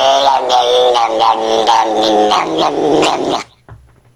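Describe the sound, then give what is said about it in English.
A cat growling while being brushed, a loud, sustained, harmonic low yowl that wavers in pitch for over three seconds before cutting off into quiet. “No, that's not honky, that's cat. That's a cat getting brushed.”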